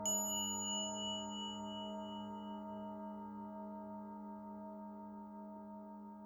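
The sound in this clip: A golden sound bowl resting on a cushion is struck once, then rings with a bright, layered metallic tone. The ring sustains and fades slowly, with a gentle pulsing wobble in the lower hum.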